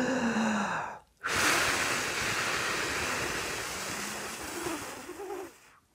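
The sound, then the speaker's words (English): A long, steady exhale blown out slowly over about four seconds during a saxophone breathing exercise counted to five, an even, breathy rush of air after a brief pause. “See if we can breathe in and blow out for five counts. Ready? Like this.”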